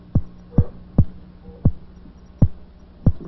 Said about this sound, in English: Now, those gentle pulses are part of the eel's radar system. In some mysterious way, he uses them to locate his food.